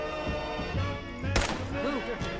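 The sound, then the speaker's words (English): A rifle shot from a .308 in a video game: a single loud, sharp crack bursts out partway through amid ongoing game sounds. “Okay, I'm shooting Big Mac in the head with my 308. And he's barely even flinching.”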